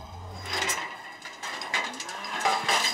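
Cattle moo in a barn where a calf is underfoot during hoof trimming, with a few low, drawn-out calls over rustling and clattering.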